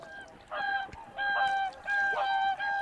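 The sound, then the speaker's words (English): Swans calling while migrating north at the first spring thaw: a few loud, nasal, harmonic honks come in overlapping bursts, one after another, with no talk. “The first hint of spring thaw attracts migrants. Swans heading north, looking for a place to breed.”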